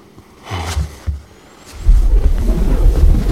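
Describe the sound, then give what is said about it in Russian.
Rain falls outside a window at night. A dense, rumbling wash rises partway through and then holds steady and loud to the end. “Ночь. За окном дождь.”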